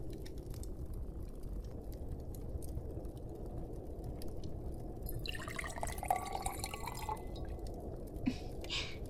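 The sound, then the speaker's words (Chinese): Hot, just-boiled water poured into a glass: a faint trickle rises over a steady low background hum partway through, with brief ringing tones and a soft drip near the end. “要不要再喝一杯水啊？来，我再给你倒一点吧。”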